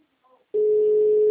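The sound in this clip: A steady telephone tone sounds after a phone call drops, a single loud, unbroken mid-pitched hum that starts abruptly after a brief faint sound and holds to the end.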